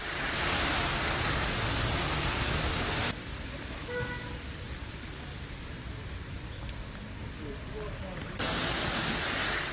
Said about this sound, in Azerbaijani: Yerin, göyün və bizim ürəyimiz bu səsə darıxmışdı. Bugünkü kimi yağışlı bir günə.